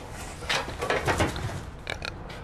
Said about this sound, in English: I've really enjoyed keeping pigs. They've not escaped once. Do you like pigs? I love them.